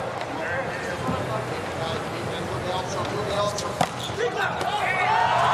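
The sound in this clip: A volleyball serve from the USA team's opposite scores an ace during a match against Italy. A sharp single hit of the ball cuts through steady commentary and arena noise.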